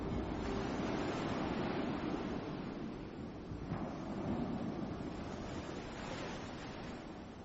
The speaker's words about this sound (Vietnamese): bên ngoài gió lớn, người hãy vào trong khoang đi